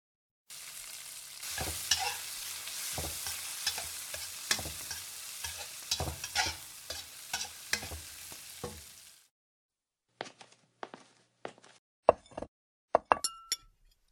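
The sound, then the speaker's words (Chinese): Food frying in a pan while a meal is cooked in a kitchen: a continuous sizzle with repeated scraping stir strokes. It then stops abruptly and gives way to a few sharp clinks and knocks of utensils and dishes. “好了，去给孩子们做饭吧，难得回来一次，得让孩子吃点好的。”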